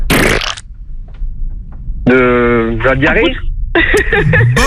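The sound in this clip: A wet fart serves as the mystery sound in a sound-guessing game. A noisy burst gives way to moist, sputtering blasts with a wavering, buzzy pitch, fairly loud throughout.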